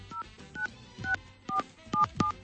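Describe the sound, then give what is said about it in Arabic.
Telephone dialing tones as a friend's number is dialed: six short dual-pitch keypad beeps at uneven intervals, faint, with soft low thuds from the button presses. “طيب خلينا نتصل بصديقنا اللي هو معرفنا اسمه من دوميز من كركوك.”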